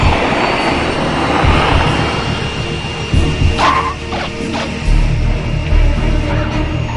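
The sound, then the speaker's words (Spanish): A Hawker business jet lands on a runway, its engines giving a steady, loud roar and rush with a thin whine running through it. “Dígale al Hawker que aterrice y que espere en la pista. El avión toma tierra.”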